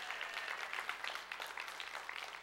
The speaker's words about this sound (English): And that's a good place to clap, even if it's for your neighbor.